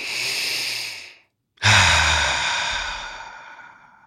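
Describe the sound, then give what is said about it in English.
A deep breath drawn in and let out: two long airy rushes of breath split by a short silent pause, the second rush louder and longer and fading slowly, with no talking. “Now with a deep breath,”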